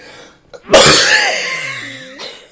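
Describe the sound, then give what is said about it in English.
A person's sudden harsh cough, a loud explosive burst followed by a long rasping, wheezy exhale that trails off, with a brief catch of breath near the end. “sorry I'm coughing so much.”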